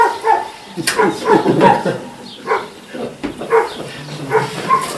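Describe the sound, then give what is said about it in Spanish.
A dog barks and yips repeatedly, with whimpering, mixed in with people talking over it, in several uneven bursts. “El perro este está dando la vara.”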